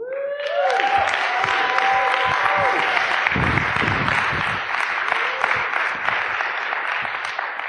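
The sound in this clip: Applause from a church audience welcoming a speaker to the stage: dense, steady clapping that stays loud and even for the full eight seconds.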